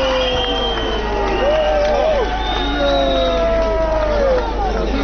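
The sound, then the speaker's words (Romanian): Crowd of several hundred protesters cheering after a parliamentary censure vote, a dense, continuous roar of many voices with wavering whistle-like tones running through it and speech mixed in. “mulțimea, câteva sute de protestatari s-au întrecut în felicitări”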